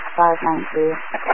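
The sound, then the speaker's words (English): A brief police radio transmission carries a garbled voice that sounds thin and band-limited, broken into a few short bursts. “your traffic is all static. I can't copy.”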